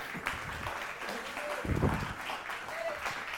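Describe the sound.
Audience applause greets a speaker coming up to the platform, a sustained wash of clapping with a louder swell in the middle and voices mixed in.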